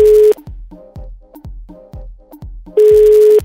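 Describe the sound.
Telephone ring tones on a call line: steady electronic tones at the start and end, with several short repeated pulses between them.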